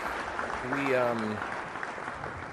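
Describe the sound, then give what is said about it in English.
Canned studio-audience applause plays as a steady, dense wash of clapping for a couple of seconds, with a man's voice briefly speaking over it. “Let's get our applause from our studio audience that does not exist.”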